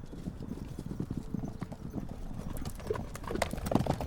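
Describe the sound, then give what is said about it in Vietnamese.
A horse galloping, its hooves pounding out a rapid, dense stream of clip-clop beats that stays steady and grows somewhat louder toward the end, with no voices. “Tạo thúc ngựa phi nước đại bỏ chạy”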